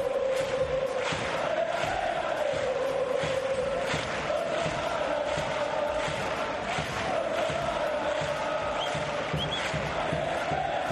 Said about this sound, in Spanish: Pues ese era el público de la Rosaleda. Ojalá ese corazón del coso de Martirico pueda volver a tener este mismo sonido.